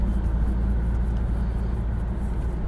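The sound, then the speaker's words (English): A car drives along a country road with a steady, low engine and road rumble. The drone stays continuous and even throughout, with no voices. “What else can we see as we're driving along?”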